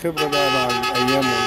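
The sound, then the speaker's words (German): Car horns blaring in Cairo traffic, a loud, sustained, buzzy tone whose pitch shifts slightly as the honking carries on without a break. “Für Außenseiter, Ausländer oder Ägypter, die nicht Taxi- oder Minibusfahrer sind, bleibt die Huperei ein ungeschriebenes Buch mit 7 Tönen.”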